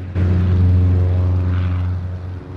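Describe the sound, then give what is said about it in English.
A small propeller plane speeds down a runway and takes off. Its engine starts abruptly as a loud, steady, low droning roar, holds, then eases off slightly toward the end. “A small plane speeds down the runway.”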